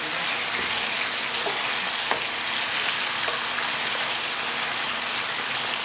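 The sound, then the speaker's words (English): Chicken sizzles as it browns in a frying pan, a loud, steady crackling hiss broken by a few faint scrapes as the pieces are turned over. “turn this around until you see that the chicken is a little bit browned, just like so.”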